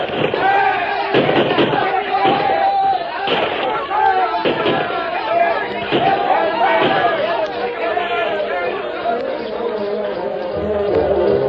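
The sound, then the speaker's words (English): Gunfire volleys crack through a radio-drama battle between mounted attackers and a band of pioneers, many sharp shots landing over a dense, continuous din of shouting voices and commotion. “The first volley from the white men sent a dozen spilling from the saddles, but the rest charged on.”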